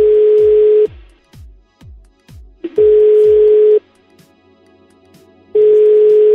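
A telephone call being dialed again and ringing: a steady buzzing tone sounds in three long bursts, with a run of rapid decaying clicks and quieter gaps between them.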